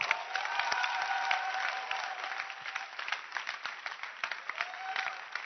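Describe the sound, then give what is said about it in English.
An audience applauds: a dense patter of many hands clapping steadily throughout, with sharper individual claps standing out from the blur. “Can you clap your hands?”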